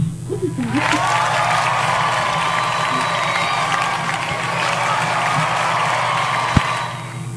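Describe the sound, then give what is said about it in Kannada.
Crowd applause and cheering given as a reward to listeners who answered a quiz correctly; dense, steady clapping mixed with shouts and whoops, sustained at a fairly loud level throughout. “ಸರಿಯಾದ ಉತ್ತರವನ್ನು ನೀಡಿದಂತಹ ನಮ್ಮೆಲ್ಲ ಕೇಳುಗರಿಗೆ ಪ್ರೀತಿಯ ಚಪ್ಪಾಳೆ.”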